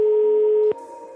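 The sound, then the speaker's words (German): A telephone line tone sounds while calling a flower shop, a single steady mid-pitched tone held for under a second, then cut off by a sharp click that leaves only a faint line hiss. “Ich muss noch ganz kurz im Blumengeschäft anrufen.”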